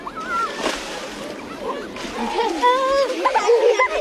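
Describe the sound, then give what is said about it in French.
Children splash on a water-covered plaza in Bordeaux's city centre on a hot day, a group of about twenty young pupils wetting each other. Irregular splashes mix with children's chatter and shrieks. “cette dalle recouverte d'eau bien connue ici dans le centre-ville de Bordeaux. Il y a quelqu'un qui mouille les autres.”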